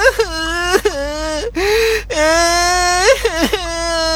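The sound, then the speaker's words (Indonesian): A small child crying in several high, tonal wailing and sobbing bursts broken by short gasping breaths, loud and close. “Dan Gepetto mendengar suara anak kecil menangis.”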